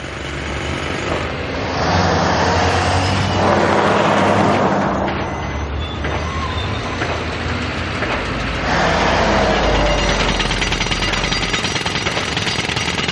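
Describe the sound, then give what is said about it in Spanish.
A truck drives along a road beside a border wall under construction, giving heavy, steady engine and road noise with a hard, rattling texture that stays loud through the whole clip. “camión circula por una carretera paralela al muro fronterizo en construcción.”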